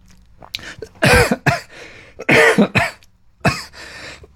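A harsh fit of coughing with throat clearing comes in several clustered bursts, loud and raspy, separated by short pauses, with no talking.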